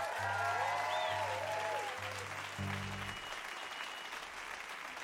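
Crowd applause at a live show welcomes a band back to the stage, a broad, sustained roar of clapping that stays loud and even from start to finish.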